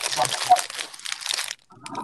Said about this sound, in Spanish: Y anda comiendo chips.